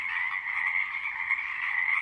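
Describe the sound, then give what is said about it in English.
Pacific chorus frogs calling at night at the Tactaxan Marsh on Saturna Island, British Columbia, a dense, unbroken chorus of high, buzzing croaks holding a steady level throughout. “It's 9 o'clock and the song of the Pacific chorus frog ebbs and flows through the darkness.”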